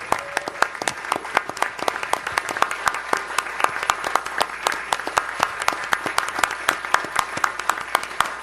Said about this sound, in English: This is real. This is an ovation that does not stop.